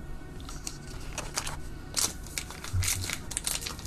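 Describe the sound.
Pokémon Obsidian Flames card packs are torn open, producing loud crinkling and crackling rips in quick irregular bursts of sharp foil crunches. A faint voice can be heard in the background.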